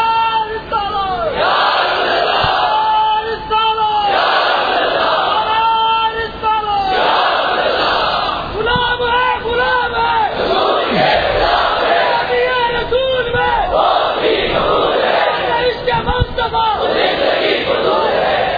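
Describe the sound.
A large crowd chants religious slogans in loud, forceful unison, with repeated rising group shouts in a steady rhythm that continues without a break.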